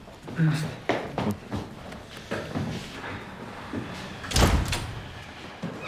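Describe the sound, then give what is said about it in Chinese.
A door is pushed shut, landing as one solid, loud thump after a few seconds of softer shuffling and handling noise. “门关上。”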